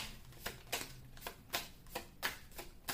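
A deck of tarot cards being shuffled: many soft, quick riffling slaps in a fairly steady rhythm, quiet and alone with no talk.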